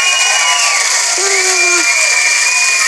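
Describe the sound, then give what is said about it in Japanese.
Studio audience cheering and applauding during a New Year's television segment, a dense, loud, steady roar that fills the whole stretch while a voice speaks over it. “新年早々の声援で、 うん、ギャラリーがいっぱいありがとうございます。”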